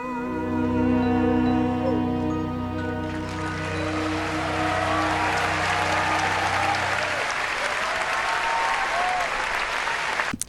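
Audience applause after a musical theatre song, rising over the final sustained notes of the song and carrying on loud and dense on its own after the music fades.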